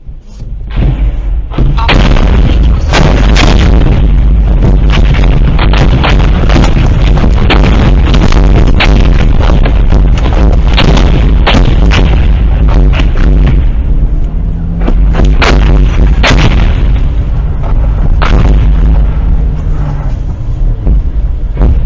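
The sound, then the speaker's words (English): Mortar fire crashing down along a highway during the Russian invasion of Ukraine while a car tries to dodge it: loud, booming blasts and sharp cracking bursts, many in quick succession, over a constant heavy rumble. “Now check out this car driver. He's trying to drive his car down the highway while basically mortar fire is incoming, and he's trying to dodge it.”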